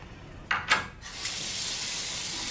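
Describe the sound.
A sink tap runs while someone washes their hands. Two brief splashes come first, then a steady, fairly faint hiss of flowing water.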